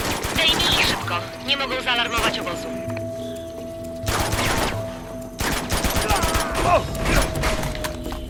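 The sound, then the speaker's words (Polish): Gunfire rattles in a video game as bursts of shots and mechanical clatter come in dense clusters. People talk over and between the shooting. “Gdzie on do mnie strzela?”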